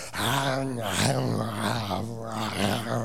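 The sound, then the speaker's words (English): A man's voice imitates a lion feasting with its face down in its food, making continuous rough growling, gnawing vocal sounds with wavering pitch for about three seconds. “And you can tell he's feasting, not just because of what you see, but because of what you hear. The lion's literally got his face down,”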